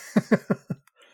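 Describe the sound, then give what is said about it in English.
A person with a lingering COVID cough lets out a quick run of four short, sharp coughs, evenly spaced and fairly loud, followed by a brief faint breath. “That COVID cough is no joke.”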